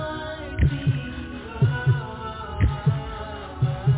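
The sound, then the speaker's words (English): A heartbeat thumps in low lub-dub pairs, about four double beats at a steady pace of roughly one per second, over a sustained droning musical backdrop. “heartbeat, to the sound of your heartbeat, to the sound of your heartbeat.”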